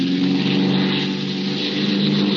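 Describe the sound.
The engine of a light propeller plane is revved while the plane flies low over a dark, deserted airfield. It makes a steady buzzing drone that dips slightly, then swells again.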